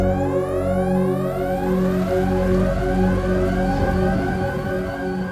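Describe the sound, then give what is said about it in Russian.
Sirens wail under the metal ceiling of an airlock, loud overlapping tones sweeping upward again and again in a continuous, pulsing cycle, with no voices. “В этот момент под металлическим потолком шлюза завыли сирены.”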